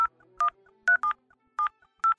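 Mobile phone keypad tones sending a code: six short, clear beeping tones in a quick, uneven series, each a steady dual pitch, with a faint low hum beneath.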